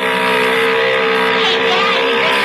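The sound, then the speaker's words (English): A motor engine running: a loud, steady, droning hum with a constant pitch that fills the whole clip without any clear revving. “Yeah, motor sounds okay.”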